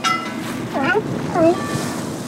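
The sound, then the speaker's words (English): A sailboat heads out of San Francisco Bay onto the open ocean past a headland lighthouse, with steady rushing wind and water noise and a couple of brief voices. “We sail out of the San Francisco Bay and are traveling up past the Point Bonita Lighthouse in the Marin Headlands.”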